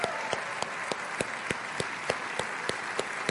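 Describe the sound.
A church audience applauding veterans: steady, dense clapping with a regular pulse of accented claps running through it, unbroken from start to finish.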